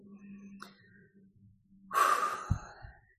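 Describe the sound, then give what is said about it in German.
A single slow exhale during a relaxation breathing exercise, a soft, airy rush of breath that rises after a quiet low hum and then fades. “Ausatmen. Und dann komm bei dir selber an”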